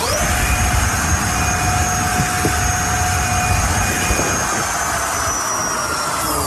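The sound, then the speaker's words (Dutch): A thin-tyred electric skinnybike with a throttle ridden flat out at around 120 km/h makes a loud, constant roar of rushing air. A steady high electric whine runs over it with barely any change in pitch. “De politie was wel benieuwd hoe hard die skinnybike van hem kon en probeerde dat even uit.”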